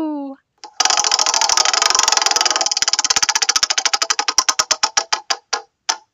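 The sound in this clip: A trivia game wheel is spun for the next question, giving a fast run of sharp clicks that gradually slow and spread out until the wheel stops after many ticks.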